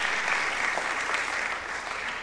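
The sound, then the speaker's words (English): Applause at an award presentation, given for a recipient's wife: steady, dense clapping from a crowd that continues evenly throughout. “And in some sense, yes, I think the round of applause is necessary for the wife.”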